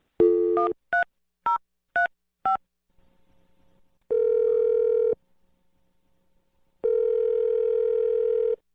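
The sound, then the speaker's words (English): Touch-tone dialing of a phone number: several quick keypad beeps in a rapid string, then two long, steady ringback tones separated by a pause, with no voices. “So let's dial the number. Here we go.”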